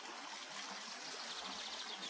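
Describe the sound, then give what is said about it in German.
Soft, continuous splashing of a water fountain rising from a pool in an open square between harem buildings. A faint, steady wash of falling water with no voices. “Aus einem Wasserbecken vor uns stieg eine Fontäne in die Luft.”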